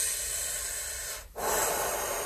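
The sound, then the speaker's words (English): A deep breath drawn in and let out: a steady, airy rush of breath noise, a brief pause in the middle, then a slightly brighter breath. No talking. “Let me take a deep breath for a second.”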